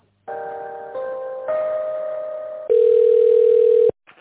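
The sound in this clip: A telephone plays its tone while a call is being connected: a sequence of steady electronic tones that change pitch, ending with a longer, louder tone that cuts off abruptly.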